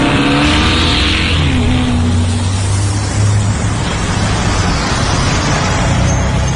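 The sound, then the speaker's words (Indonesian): Loud engine roar from an angkot minibus suddenly accelerating as it climbs onto a bridge over a railway line. The roar is dense and continuous through the whole stretch, with no talk. “angkot yang kunaiki ini tiba-tiba saja menancap gas.”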